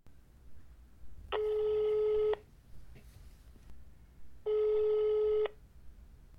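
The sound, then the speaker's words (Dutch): Ringing tone of an outgoing telephone call: two long, steady electronic rings of about a second each, separated by a few seconds of quiet line hiss. “Misschien kunnen we hem wel eens bellen. Ik vind het wel een grappige actie. Ja, laten we ze bellen.”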